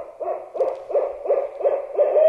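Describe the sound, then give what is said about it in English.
A barred owl hoots in a quick, even series of six low, rounded notes over a quiet background. “First, he plays a recording of a barred owl. Soon, a real barred owl starts hooting.”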